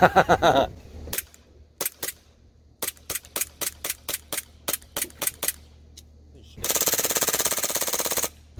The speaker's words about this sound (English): I'm going to put it back to semi. Glock 18C!